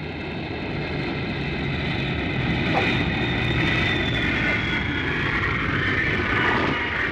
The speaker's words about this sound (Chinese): 十几天以后，国航客机徐徐地降落在灯火通明的机场。当起落架沉闷地接触到地面的时候